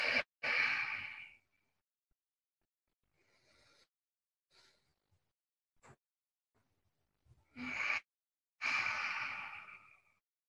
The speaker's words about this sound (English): So just a few breaths at your own pace. Inhale and exhale.